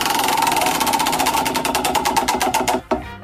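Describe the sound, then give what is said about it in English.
A prize wheel spins with a rapid, steady stream of loud ticking clicks that gradually slow and end in a final few clacks as it stops. “are you ready for the wheel? Spin the wheel.”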